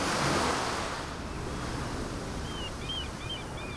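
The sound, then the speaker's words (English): Ocean waves wash steadily at the shore in a broad, hissing surf roar that is slightly louder at the start. A few faint, high chirps come in near the end. “You stand right at the ocean, and it's beautiful, because it's in big natural stereo. There are things happening on both sides of you, as well as happening directly in front of you. It's wonderful. I love that sound.”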